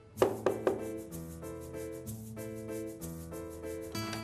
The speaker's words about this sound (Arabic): يي اللي ساعة عم دق وما عم تفتح لي؟